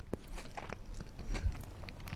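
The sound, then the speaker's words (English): Someone chews a bite of apricot chicken, making soft, irregular crunches and wet mouth clicks, with no talk. “let me just have a little taste here. It looks fantastic. It doesn't look like the apricot chicken my mum used to serve.”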